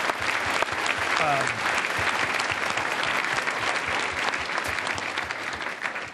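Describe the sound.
Audience applause at a Climate One talk, a dense, steady clapping that holds at an even level for about six seconds before easing slightly at the end.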